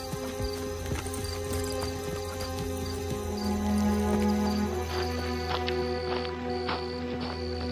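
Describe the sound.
Horses' hooves clip-clop at an even walking pace as they are ridden up to a stable. The hoofbeats form a steady run of crisp knocks over a sustained tonal backdrop.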